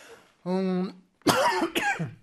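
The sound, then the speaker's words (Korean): A few harsh, rough coughs from a man follow a short voiced groan, the bursts coming close together in quick succession. “어우, 죄송합니다. 왜 계속 기침이 나올까?”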